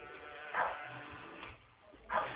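Dog barking, a few short, faint, muffled barks separated by quiet gaps.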